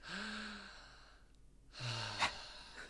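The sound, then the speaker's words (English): Deep breaths: two long, voiced, slightly whiny breaths with a quiet gap between them, and a brief sharp sound near the end. “Big deep breaths. Big deep breath. Big deep breath.”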